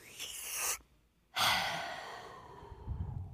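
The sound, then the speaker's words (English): A single deep breath, loud and close: a rushing inhale, a brief silent pause, then a long, sighing exhale that fades away. “So everybody take a deep breath for me.”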